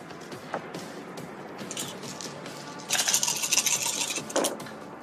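Dice rolling during a tabletop role-playing game's combat round: a brief, bright clattering rattle of about a second and a half over faint steady background noise, with a few light taps before it.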